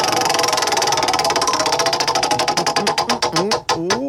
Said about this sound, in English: Let's spin the wheel. I have the wheel. Here we go.